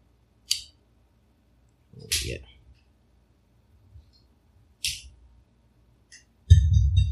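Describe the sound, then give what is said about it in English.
A cutter snipping the cap off a Connecticut cigar, heard as a few sharp, isolated clicks and snaps separated by quiet pauses. “I had the cap on here and I cut it and I flicked it into there.”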